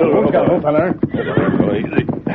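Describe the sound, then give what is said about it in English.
Horses whinny as their riders pull them to a halt in a rocky canyon, with repeated loud neighs mixed with a few hoof clops. “Early the next morning in Red Rock Canyon near Clemens and Buena Vista, the Lone Ranger and Tonto pulled their horses to a halt.”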